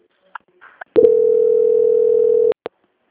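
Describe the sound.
A steady, single-pitch telephone line tone plays during a call transfer and holds for about one and a half seconds. A few short clicks come before it and one click follows.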